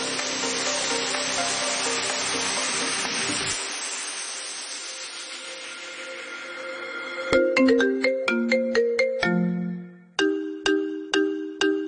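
Electronic dance track built on a telephone ringtone melody: bright sustained electronic tones at first, then a loud rhythmic run of many sharp, repeated ringtone-style notes stepping between pitches over a steady beat.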